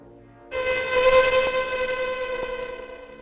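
Ghostly howling, meant as a woman imitating a ghost to frighten children in the dark, starts after a brief quiet opening as one long, steady, siren-like tone that stays loud until the end.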